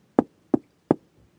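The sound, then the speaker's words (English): Three sharp knocks on a wooden cabin door come in an even rhythm, each a short, dull thud, with a faint tap after them and no voices. “there came a knock on the door.”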